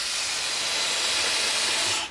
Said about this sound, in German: Da koche ich jetzt diesen Fenchel kurz an.